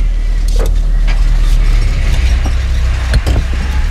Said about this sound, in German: Los, wir fahren hinterher.